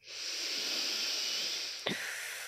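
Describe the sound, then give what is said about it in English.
A deep breath drawn in through the nose during a breathwork exercise: a steady, airy hiss that swells in and holds for nearly two seconds, with no talking over it. “taking a deep breath in through the nose”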